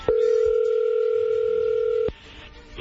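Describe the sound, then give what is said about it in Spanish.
A telephone line gives one steady, even dial tone while a call is placed. It holds at the same loudness for about two seconds, then cuts off abruptly and leaves only faint low noise. “vamos a marcarle, Héctor, a tu esposa Yolanda”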